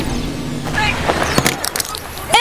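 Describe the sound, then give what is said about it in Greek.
A mobile phone is dropped and its screen cracks: a short cluster of sharp crackling clicks and splintering snaps, with brief voice sounds nearby. “Σου έπεσε το κινητό! Έσπασε η οθόνη!”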